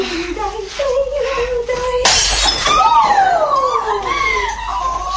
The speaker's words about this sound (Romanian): Ce-ai făcut? Acu te-ai pornit să spargi lucrurile de prin casă cu valțurile tale.